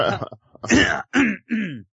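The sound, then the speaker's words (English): Throat clearing and coughing from someone with a nasty cough: a few rough, raspy bursts in quick succession, fairly loud and with no talk over them. “Excuse me. Yeah, I was absorbing that and trying to mask the fact that I have a nasty cough going on.”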